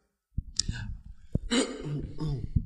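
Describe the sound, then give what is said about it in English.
Coughing from a person with a dry throat: a few short, sharp coughs and some throat clearing, mixed in with speech. “Because you threw me out. Because you keep coughing.”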